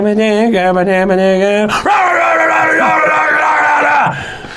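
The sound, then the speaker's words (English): A voice imitates growly, yelling metal vocals: a loud, steady pitched tone that breaks into a long, rough, harsh yell before cutting off. “the drummer is the I'm the yelly growly guy and I go like this”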